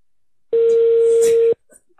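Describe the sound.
A telephone keypad tone sounds while an extension number is dialed: one loud, steady, mid-pitched beep held for about a second, then a brief faint trailing noise.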